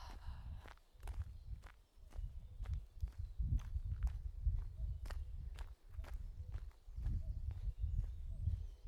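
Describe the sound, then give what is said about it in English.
Footsteps of people walking during a beginners' running session: many steady, regular steps with crisp, sharp strikes over a continuous low rumbling noise. “Everyone, nice and upright, look around, and time to walk.”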